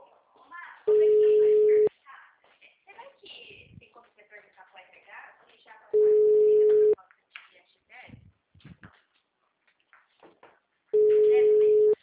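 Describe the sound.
Ringback tone of an unanswered telephone call: three steady mid-pitched tones, each about a second long and evenly spaced several seconds apart, with people talking in the gaps between them.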